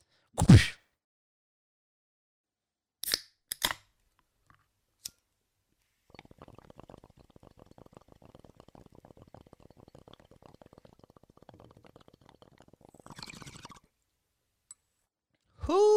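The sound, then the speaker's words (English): A few sharp lighter clicks, then a long stretch of steady, crackly bubbling during someone's smoking session, ending with a hiss of breath; sparse, quiet events otherwise. “Ooh, baby. That is the sound of someone having a sesh. And in Australia, there's nothing better than having a sesh with the boys.”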